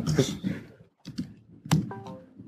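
Typing on a computer keyboard: short, faint clicks and taps in small bursts separated by brief pauses.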